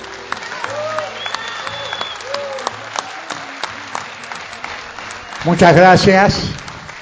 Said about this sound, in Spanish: Pido un fuerte aplauso